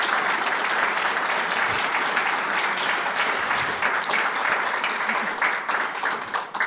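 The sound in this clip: A live audience at Town Hall Seattle applauds Seattle Police Chief Adrian Diaz at the close of a community conversation, giving steady, dense clapping that holds at an even level for the whole clip.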